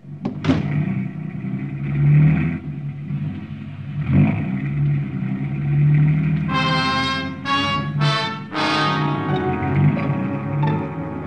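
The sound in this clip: A car engine hums and rumbles as the vehicle drives through the streets of downtown Bangkok, with the revs swelling and easing at a steady, moderate loudness.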